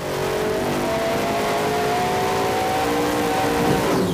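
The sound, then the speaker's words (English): A 1,500-horsepower truck engine revs hard during a dyno test pull, a loud, continuous roar held steady for several seconds with its pitch shifting only slightly. “This is the dyno room, my most favorite place on the property. 1,500 horsepower, and we're gonna see a test pull right now.”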